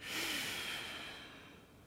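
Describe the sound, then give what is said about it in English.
A strong, forceful exhale during a restorative yoga breathing exercise: one steady, breathy rush of air that tapers gently over nearly two seconds, with no talking. “Inhale into chest, chest, pause at the top. Strong exhale, pause at the bottom.”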